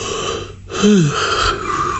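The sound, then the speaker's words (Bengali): A person gives a big yawn: a breathy, wheezing intake that swells into a short voiced tone falling in pitch, then trails off into breath. “Feluda ম্যাগাজিনটা বন্ধ করে একটা বিরাট high তুলে বলল”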